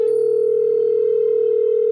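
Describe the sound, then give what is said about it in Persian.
A telephone tone sounds as a call is placed to someone. It is a steady, unbroken, mid-pitched hum that holds one even pitch for about two seconds, heard alone without any voices. “شروع کردم به کرتیس زنگ زدن که فقط اذیتش کنم.”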